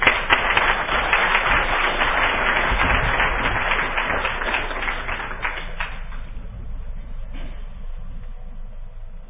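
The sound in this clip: Audience applause at DEF CON greeting a speaker: dense, steady clapping from a large crowd holds strongly for about six seconds, then quickly thins and dies away to a faint murmur.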